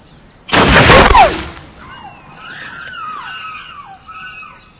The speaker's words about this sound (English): Is someone shooting you?